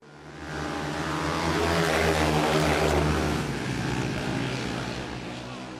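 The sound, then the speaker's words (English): Roaring vehicle engines at the Hadda Desert Race, a loud, broad, steady drone that swells over the first seconds and then slowly fades toward the end. “If you're out in Hadda this weekend, that might be what you hear, as the Hadda Desert Race is back for another year.”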